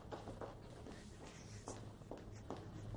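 Faint footsteps of a woman in an elegant dress moving through the dark toward a basement. A series of soft, irregular steps sounds over a low background hum.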